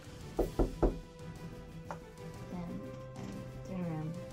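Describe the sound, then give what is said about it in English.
A knock at a door: three quick, hollow knocks in a row, followed by someone talking. “And then I assume there's a knock at your door.”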